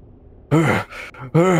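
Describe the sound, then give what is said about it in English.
A voice imitates the heavy, labored breathing of a creature in a tabletop role-playing game: a few loud, voiced groaning breaths in quick succession, each rough and low-pitched. “So he kind of is starting to, like, breathe heavily.”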